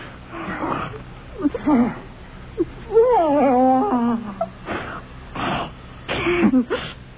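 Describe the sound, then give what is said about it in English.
A man's horrible, choking gurgle rises from his throat as he lies convulsing on the floor, hands twitching beneath his chin. Short rasping bursts surround a longer wavering, strained groan. “a horrible gurgling issuing from his throat”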